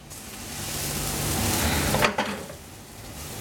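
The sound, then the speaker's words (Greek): Squid sizzles in a hot frying pan, a steady, loud hiss that builds gradually. A brief clatter of stirring against the pan comes near the middle. “Έχει φύγει το νερό του. Το τηγάνι είναι ζεστό, το καλαμάρι έχει γίνει αυτό που θέλουμε εμείς.”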